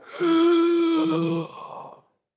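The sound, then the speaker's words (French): A voice imitates the breathing of a faceless monster: one long, droning voiced exhale held steady, then trailing off into a quieter breathy rasp before silence. “elle n'a pas de visage, mais je l'entends quand même respirer. Dans ma tête, elle fait...”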